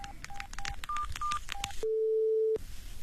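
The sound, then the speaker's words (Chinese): A mobile phone is being dialed: a quick series of short, bright keypad beeps, then a single longer, steady tone. “把你的手机打开。 是。 打那个陌生电话”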